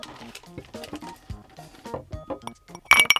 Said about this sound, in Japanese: グラスにたっぷり氷を入れてチョコドリンクを注ぐだけ。